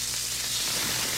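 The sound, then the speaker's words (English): Smash burgers sizzle at JC's North restaurant in a steady, even hiss of frying fat. The sound is brief and fairly quiet, with no breaks and no voices. “Fresh, juicy, award-winning smash burgers are sizzling right now at JC's North on the corner of Rockton and Riverside.”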